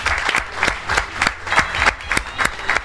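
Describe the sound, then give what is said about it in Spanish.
Audience applause fills the final of a vintage trivia game show event, a dense, steady run of claps with a regular rhythmic pulse and no break across the whole stretch. “Un fuerte aplauso.”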